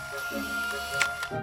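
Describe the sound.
A camera shutter snaps a photo in a shop setting, with a couple of quick, sharp clicks near the end over a steady background hum.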